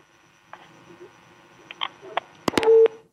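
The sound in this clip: Phone line cutting off during a call-in: faint hiss and line noise with scattered clicks, then a few sharper clicks and a brief steady electronic tone near the end.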